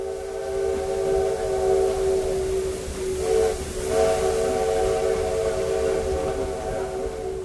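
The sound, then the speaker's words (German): A small tourist train sounds a long, steady multi-tone whistle as it arrives at a station. The whistle holds for the whole stretch and wavers briefly midway, over constant hiss and low rumble. “Vor der geschichtsträchtigen Kostprobe steht eine kurze Reise mit einer Bimmelbahn. Nach einer halben Stunde fährt sie in den Bahnhof von Tiradentes ein.”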